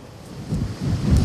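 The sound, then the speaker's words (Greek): Strong 7 to 8 Beaufort wind gusting over a hillside village near Rethymno during a wildfire, a low buffeting rumble that swells and eases in uneven gusts and grows louder toward the end, with no voices. “εξακολουθούν να πνέουν ισχυροί άνεμοι στην περιοχή”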